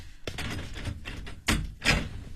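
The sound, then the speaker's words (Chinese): Heavy thumps of a door being rammed and kicked open, a few dull blows, the last two the loudest and sharpest. “你不开门，不开门我就撞门了。”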